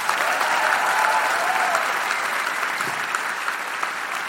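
Audience applause at a live public recording, a dense, even wash of clapping from many hands that holds steady and fades slightly toward the end, with no talk over it.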